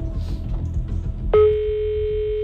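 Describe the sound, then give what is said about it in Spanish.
A telephone ringback tone sounds after a number is redialed: one steady, evenly pitched tone starts partway through and holds to the end, following low rumbling background noise. “Doncs vinga, tornem a marcar, a veure si ara sí tenim sort.”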